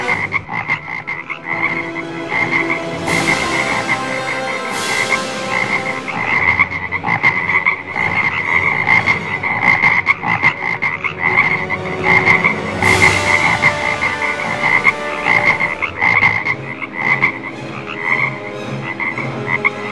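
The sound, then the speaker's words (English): Frogs croaking in a dense chorus: steady overlapping croaks and trills throughout, with a few sharp clicks standing out over the constant pulsing. “Frogs are everywhere! In my bedroom, garden, even in my shoes.”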